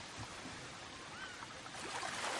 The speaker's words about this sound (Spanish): Llega a la piscina y se lanza vestido. Nada bajo el agua.